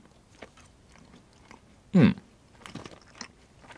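Someone bites into two gummy candies at once, giving one distinct, loud chewy bite. Faint, soft chewing follows in otherwise quiet surroundings.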